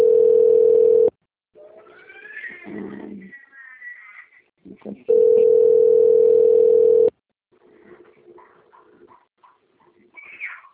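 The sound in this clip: A telephone line tone plays while a call is being transferred. Two long, steady beeps sound, the first about one second and the second about two, with broken, fluttering sounds between and after them.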